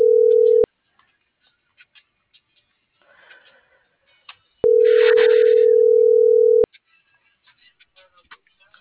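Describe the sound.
Steady mid-pitched telephone tones sound while a number is being dialed. One short tone is followed by a longer tone of about two seconds, with faint clicks and ticks in the quiet gaps between them.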